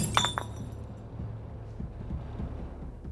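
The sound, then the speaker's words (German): A beer bottle smashing onto a floor: two quick, bright shattering crashes of glass right at the start, then a low, steady rumble for the rest. “Ich zerschlage die Flasche. Das Bier fließt auf den Boden.”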